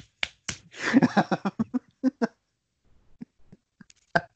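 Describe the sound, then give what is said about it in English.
Face-palm slaps of a hand against skin: many crisp, sharp smacks in an uneven series, a dense run of louder hits early, then softer scattered taps and one final louder smack, with no talk. “This is the sound of me face palming myself on a podcast.”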